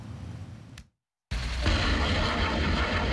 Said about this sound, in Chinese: 这是台湾军方自行研制的雷霆2000火箭弹，在时隔7年后首次在实战区域进行实弹射击